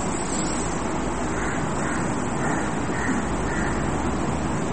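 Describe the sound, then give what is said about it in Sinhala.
A crow caws several times in a row, its harsh calls fairly faint beneath a loud, constant hiss of background noise. “කාක්කා මොන වගේ දේ කියලා පේනවනේ. කළු පාටයි ඒ වගේ.”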